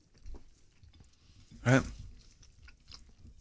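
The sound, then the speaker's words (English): Chewing food during a tasting, marked by one loud, crunchy bite midway through over a faint, low background. “Sorry to eat in front of you.”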